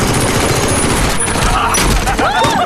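Gunfire in a combat scene, a dense, continuous rattle of rapid shots layered into a loud, unbroken barrage that stays steady from start to finish.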